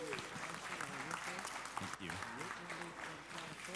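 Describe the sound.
A church audience applauds to welcome a guest pastor, with steady, sustained clapping under a voice that carries on throughout.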